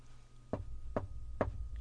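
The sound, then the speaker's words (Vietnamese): Three evenly spaced knocks on a door, heard over a phone, form a steady rhythm. They sound faint and dull over a constant low hum. “Có tiếng gõ cửa vang lên từ một đầu dây khác của điện thoại, cảm giác rất có tiết tấu”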